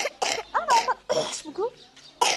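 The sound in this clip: A person with tuberculosis coughing at home, giving a few harsh, rough coughs in quick succession with voiced sounds in between.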